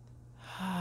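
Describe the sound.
A deep breath drawn in during a guided breathing exercise, a short airy inhale that starts softly and swells louder over under a second, cut off as it peaks.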